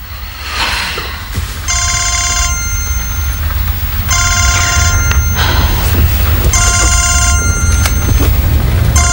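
A telephone rings in three separate bursts, each a bright electronic trill lasting under a second. Short gaps fall between the bursts, over a steady noisy background.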